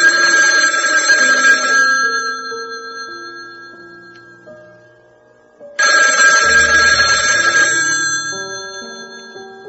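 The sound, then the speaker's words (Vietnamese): A telephone rings in a room in the early morning, with two long bursts of bright, bell-like ringing. Each burst fades slowly, and a short lull separates them, with no voices. “Điện thoại trong phòng trung sĩ Rô reo vang khi đồng hồ treo tường chỉ đúng 3 giờ 50 phút sáng.”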